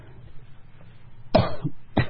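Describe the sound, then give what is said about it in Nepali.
Coughing from an elderly man, a couple of harsh, raspy coughs bursting out one after another over a quiet background, with no talk. “अब साह्रै खोकी खोकी पो लागेको छ”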